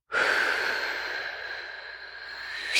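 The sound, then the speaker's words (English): A long, deep breath during a breathing-in exercise makes a steady, airy rush lasting almost three seconds. It ends in a brief, sharper puff of air. “Let's breathe in and out together, guys. Let's count to 3 and breathe in.”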